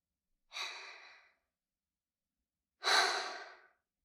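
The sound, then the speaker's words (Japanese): Two slow, deep breaths, each a soft, airy exhale lasting under a second, separated by a long silent pause, with no talking. “私に合わせて3回深呼吸して。”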